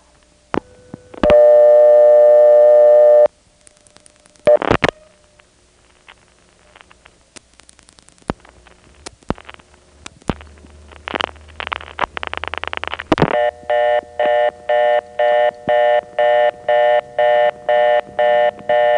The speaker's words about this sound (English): it dials something that is invalid in the step. So we'll be getting the step reorder by way of the NX1.